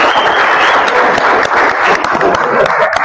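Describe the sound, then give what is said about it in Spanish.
Dense applause from an audience welcoming the new coaching staff of the Club Real Potosí football club. The clapping stays steady and loud for the whole clip, with no pauses. “Gustavo Miranda, bienvenido. Un aplauso.”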